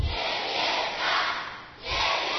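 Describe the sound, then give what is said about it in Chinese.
Children in a class shout a loud cheer on their teacher's cue, in two strong swells of massed young voices with a clear dip between them. “大声一点，有力一点，好不好？好，来欢呼哦”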